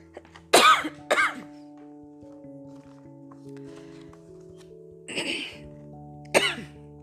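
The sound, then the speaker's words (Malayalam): Dry coughs from someone chilled by cold air conditioning: two sharp coughs close together, a long pause with faint steady background tones, then two more separate coughs. “തണുപ്പ് കൂടിയപ്പോൾ ചുമ വന്നതാണ് ക്ഷമിക്കണം”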